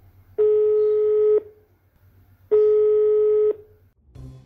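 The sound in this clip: Telephone call being placed, heard as a ringing tone: two long, even, mid-pitched rings separated by a pause, followed by a faint brief sound at the end.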